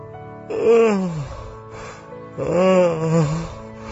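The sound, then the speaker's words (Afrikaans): Two long, breathy voiced yawns in the morning, each with a pitch that falls away as it trails off, separated by a short pause. “Gaap ek hom nou. Jy nog 'n bietjie gaperig is vanmôre.”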